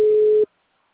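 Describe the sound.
A telephone ringing tone on an outgoing call: a single steady, mid-pitched beep lasting just under half a second, then silence.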